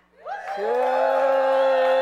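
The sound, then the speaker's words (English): A church audience gives a cheer, voices sliding upward in pitch into a long, loud, sustained call that holds steady to the end. “Anyone want to give a cheer?”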